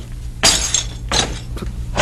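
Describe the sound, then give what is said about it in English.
Window glass shattering and breaking in a few separate loud, bright crashing bursts, each with a sharp onset and a short trail of tinkling fragments. “What's this? Glass. Anton. Oh, look at the windows. Every one of them. Oh, they're broken.”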